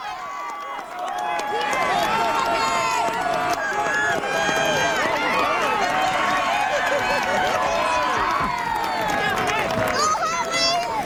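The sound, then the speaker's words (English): Many runners pound along in a corporate challenge race, some Coast Guard workers running in full safety gear. A dense, steady wash of crowd hubbub and voices covers the footfalls throughout. “Those are some of the runners in the Corporate Challenge, including some Coast Guard workers running in their full safety gear.”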